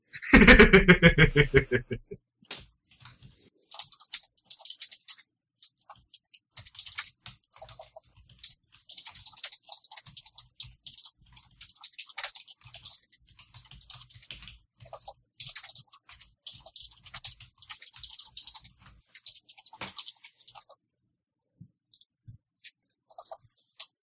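Rapid typing on a computer keyboard: many light, irregular clicks and clatters in uneven bursts with brief pauses, faint throughout and with no talking.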